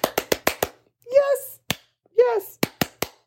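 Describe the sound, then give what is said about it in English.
Hand clapping from a single pair of hands, given as a round of applause: five quick sharp claps, then speech, a lone clap, more speech, and a closing run of four claps. “Like, I'm going to give you a round of applause.”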